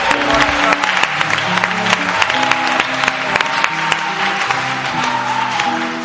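A church audience applauds in acclamation, with brisk, roughly rhythmic clapping over sustained tonal background sound, steady and loud throughout.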